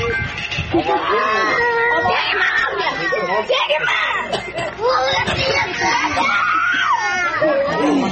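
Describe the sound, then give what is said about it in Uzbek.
Children crying and wailing as officials take away a family's cattle. The high, strained cries run loudly and continuously throughout, with other voices mixed in. “Ayol zo'ravonlarni qarg'aydi. Uning bolalari chirillab yig'laydi.”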